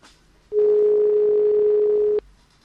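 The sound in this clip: Dial tone after a radio phone-in call drops: one steady, mid-pitched tone that starts and stops abruptly and lasts under two seconds, heard on its own.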